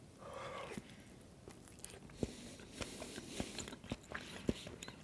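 Someone bites off half a piece of food held in chopsticks and chews it: faint, soft crunches and wet clicks recur irregularly over a quiet, steady hiss.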